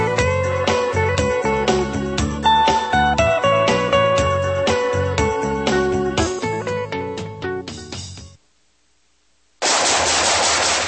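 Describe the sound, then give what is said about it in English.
Automatic gunfire rattles in loud, rapid bursts of shooting that carry on for several seconds, fade into a brief silence, then break out again in a sudden loud blast. “Nice shooting.”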